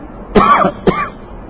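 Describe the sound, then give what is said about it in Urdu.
A person coughs twice during a religious lecture. A harsh, loud burst is followed by a shorter second cough over a low, steady background hum. “دیکھو کھانسی شروع ہو گئی”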